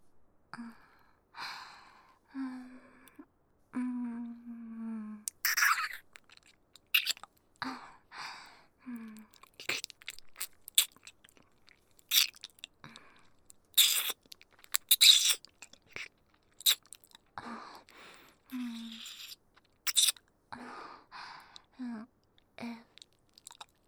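Crunchy, chewy food is eaten and chewed: many crisp crunching bites and wet chews scattered throughout, with sighs, breaths and a few brief voiced sounds in between, all fairly quiet.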